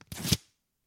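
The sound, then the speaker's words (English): A paper envelope torn open in a single short, quick rip, faint and over in a fraction of a second, followed by silence. “Now opening the envelope with ease. I'm making it look like I do this every day, and I do. I'm really good at opening things.”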